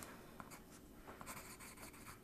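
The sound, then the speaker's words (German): A pen writes notes on paper, making faint, soft scratching strokes with a few small taps, steady and quiet throughout. “Sie greift sich einen Stift und macht sich Notizen.”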